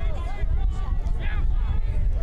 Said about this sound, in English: The wind is whipping. You can hear it from up here.